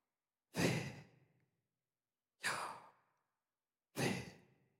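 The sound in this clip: Three slow, evenly spaced breaths in and out, each a soft, sighing rush of air that swells and fades away, with quiet between them.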